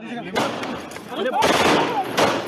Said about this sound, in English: A gunman is seen reaching over the shoulders of police to point a pistol at the Temple of Ahmed, whose turban is blown off as the gun discharges.